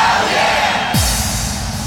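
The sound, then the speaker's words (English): An audience shouts in unison, a loud, sustained roar of yelling voices with no break across the whole moment. “Let me hear you say hell yeah! Come on! Hell yeah! Say hell yeah!”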